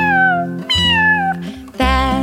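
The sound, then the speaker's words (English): A singing voice imitates a cat's meow three times in a children's song, each meow a drawn-out tone with a gently falling pitch, clear and fairly loud over steady musical backing. “That little cat went”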